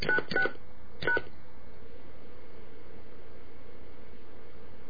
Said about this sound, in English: I don't know what number it's dialed.